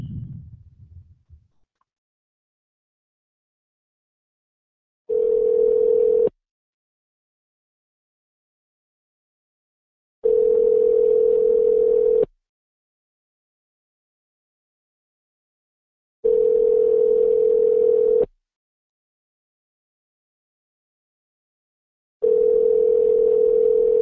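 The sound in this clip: Telephone ringback tone on a call: four long, steady, mid-pitched tones at even intervals, separated by silence, after a brief low sound at the start.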